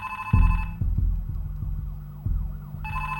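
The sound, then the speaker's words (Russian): A telephone rings on a table in short electronic bursts at the start and again at the end, with low thumps in between. “На столе звонит телефон.”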